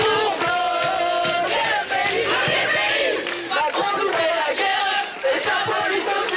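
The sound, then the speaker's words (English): A crowd of students protests in Lille, France, gathered behind makeshift barricades in a standoff with police. Loud, dense shouting and chanting carries on without a break, with many voices blending into one continuous roar. “The sound of one protest in Lille.”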